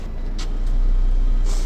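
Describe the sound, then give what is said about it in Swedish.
Inside a moving, crowded bus: a steady low engine rumble that swells slightly, broken by a few brief airy hisses, with no voices heard. “Här är rätt fullt i den här bussen.”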